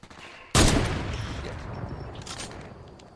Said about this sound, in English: Is that you getting shot at? No, that's me shooting at.